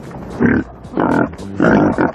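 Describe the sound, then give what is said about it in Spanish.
A voice imitates a wild boar sniffing and snuffling with its snout, producing three loud, grunting, pig-like bursts separated by short pauses. “¿Tú sabes cómo empieza a buscar la droga el jabalí? Con el hocico, claro. Así.”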